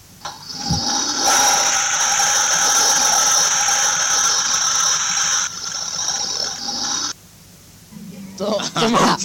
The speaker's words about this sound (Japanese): これ、今の音はですね、便所の流れる音です。 はい。 あ、じゃーっと。 流したぞと。